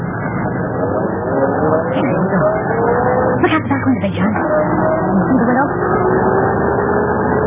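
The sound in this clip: A taxi car engine runs as the car drives off in a radio drama: a steady low rumble with faint tonal lines that continues throughout, with voices talking over it.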